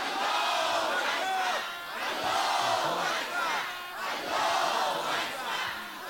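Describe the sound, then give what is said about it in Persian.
A large crowd at a religious gathering shouts Allahu Akbar in unison, many voices chanting together in loud repeated swells with brief dips between phrases. “بلند و یک صدا بگو الله اکبر.”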